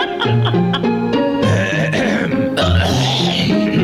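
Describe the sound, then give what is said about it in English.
A man clears his throat in a few rough, gravelly bursts over a steady tonal background. “Excuse me, I got a little chunk in my throat there.”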